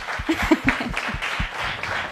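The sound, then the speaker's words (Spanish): Audience applause at a Spanish-language game show, a dense, steady patter of clapping that holds at an even level, with some voices mixed in. “Por favor, un aplauso para Andy”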